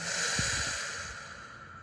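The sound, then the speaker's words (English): A deep exhale during a guided group breathing exercise: one long, steady, breathy rush of air that slowly fades, with no talking. “We'll take one last deep breath together and let it go.”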